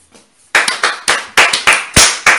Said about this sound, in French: Applaudissez pour elle.